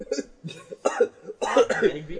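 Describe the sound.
Coughing after inhaling saliva: several harsh, breathy bursts with short gaps between them, ending in a longer, rougher fit that sounds like throat clearing.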